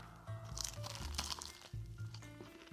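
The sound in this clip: Crunching bites of a heavy, baked banana-filled sweet with a caramelized surface, the chewing steady and moderately loud with a few sharper crackles, set against a faint low tonal hum.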